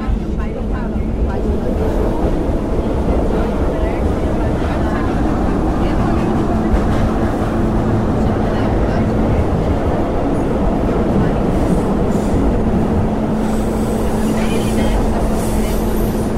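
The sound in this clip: Steady, loud rumble of a metro train at a subway station platform on line 3, with a continuous humming motor tone running evenly through the whole stretch.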